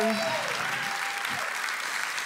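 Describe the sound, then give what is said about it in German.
Applause from a live stand-up comedy audience, a dense, even patter of many hands clapping at a steady level through the whole short stretch. “Das ist oft so der Applaus, wo ich auch so ein trauriges raushöre.”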